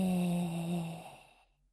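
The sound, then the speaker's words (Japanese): One long, deep, voiced exhale, a steady low hum-like breath that tapers off and fades to silence by the end. “吸って、吐いて。最後に大きく吸って、吐いて。”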